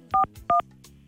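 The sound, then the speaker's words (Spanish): Two touch-tone beeps as a telephone number is dialed to call someone. The tones are short, evenly spaced and mid-pitched, with no talk. “Vamos a tratar de comunicarnos con Deyanira, que a ver si va en el biotren, a ver si nos contesta.”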